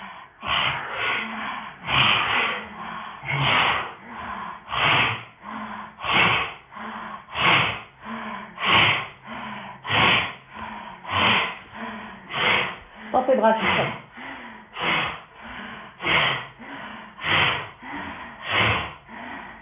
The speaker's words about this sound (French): Et puis ensuite, on va donc mettre en place le souffle de Bastrika.